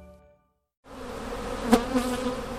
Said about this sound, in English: This is the sound one typically associates with the honeybees that pollinate California's crops and orchards.